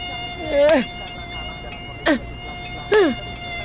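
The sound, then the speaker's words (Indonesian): A thin, steady mosquito whine hums through a sweaty, sleepless night, broken by three short, loud squeals that sweep downward in pitch. “Malam-malam keringetan, gak bisa tidur, banyak nyamuk. Nyamuk, kenapa sih gigit-gigit?”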